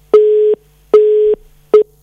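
Telephone busy tone after a call is cut off: three evenly spaced steady beeps at the same pitch, each about half a second long, with nothing else around them.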